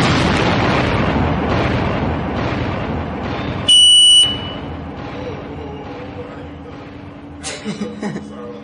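A bomb explosion sound effect from a radio DJ opens as a broad, booming blast that fades slowly over several seconds. A short, loud high beeping tone follows, and a smaller burst comes near the end.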